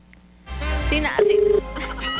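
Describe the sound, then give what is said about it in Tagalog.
The ringing tone of an outgoing phone call: one short, steady, buzzing tone at mid pitch, heard between voices over a low background hum. “Ay, ako na nga tumawag. Testingan nga natin na ako yung tumawag. Testingan natin kung sasagot ito, ha?”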